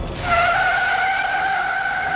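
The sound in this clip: Car tires skid and squeal during a movie car wreck: one loud, sustained high-pitched screech that holds steady for about two seconds, with no talking.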